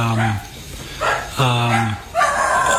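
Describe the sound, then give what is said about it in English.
Dogs barking and yipping in a few loud, separate bursts, each with a sharp harmonic yelp. “Is that your dogs? Nope.”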